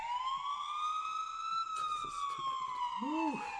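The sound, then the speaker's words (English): A police siren sound effect played from a free soundboard phone app: one long, loud electronic wail that holds high and then slowly slides downward in pitch across the whole clip. “It's a soundboard. It's not the sound of the police though. Wait, I have that. Pick. Yeah. I have police.”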